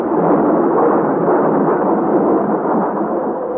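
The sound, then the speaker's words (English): Thunder rumbles through a storm at sea aboard a sailing ship. It is a dense, loud low roar that holds steady, with no distinct separate claps. “And now to the fearful claps of thunder are added dazzling flashes of lightning such as I have never seen before.”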